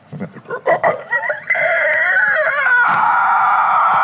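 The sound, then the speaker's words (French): A woman screams amid an eerie, unreal tone in a fantasy role-playing scene. A few short bursts give way to a loud, shrill, wavering cry that holds steadily to the end. “Et vous entendez une femme qui hurle et un son irréel pour vous.”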